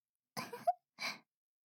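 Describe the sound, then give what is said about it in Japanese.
A single quiet, deep breath drawn in two soft, airy parts with a short pause between, heard alone. “じゃあもう一度 深呼吸。”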